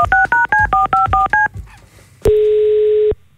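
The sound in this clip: Telephone keypad dialing tones: a rapid, evenly paced run of short two-tone beeps, then a brief pause and one long, steady, loud tone held for nearly a second before cutting off.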